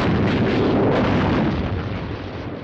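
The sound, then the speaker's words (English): Artillery fire from guns on a riverbank, used as a radio drama sound effect, forms a loud, continuous roar of overlapping blasts and rumble that eases slightly toward the end. “Artillery guns on the bank open fire. Bridge, make to CNC! Am under heavy fire!”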